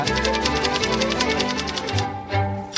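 Very fast typing on a keyboard: a dense, rapid stream of many crisp clicks in a steady, even rhythm, fairly loud throughout, thinning briefly near the end before another short burst.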